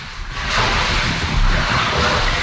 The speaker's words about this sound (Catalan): El viral del cap de setmana, però, és el d'un goril·la que es remulla en una piscina del zoo de Dallas.